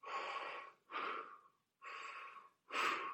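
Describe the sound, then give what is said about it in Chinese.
Human breathing: four loud, airy breaths alternating in and out with short pauses between them, heard alone. “这就是呼吸，你明白了吗？”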